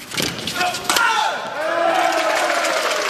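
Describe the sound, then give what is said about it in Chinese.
Spectators in a volleyball arena cheer for China's team while it leads the second set 19-12; a single sharp slap of the ball cuts through early, then a steady, loud crowd roar follows. “现场给中国队加油助威的声音，响彻整个体育馆”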